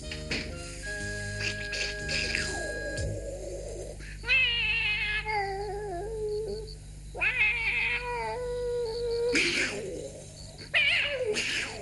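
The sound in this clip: A cat meows and caterwauls in several drawn-out, wavering calls that rise and fall in pitch. Louder yowls break in at intervals over a continuous low background hum.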